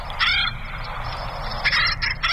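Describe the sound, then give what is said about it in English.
Raucous, repeated calls of an acorn woodpecker, a large clown-faced woodpecker of oak woodlands, ring out in loud, rapid bursts over a steady low rumble. “That is the acorn woodpecker.”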